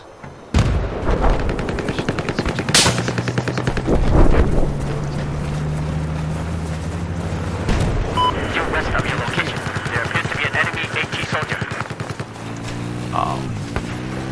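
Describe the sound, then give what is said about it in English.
Gunfire and tank explosions from the video game Battlefield 4: a few sharp, loud blasts break over a continuous rumbling bed, with rapid gunfire and droning engine tones between the impacts. “They changed the interface to Battlefield 4 quite a bit. Tank blew me up.”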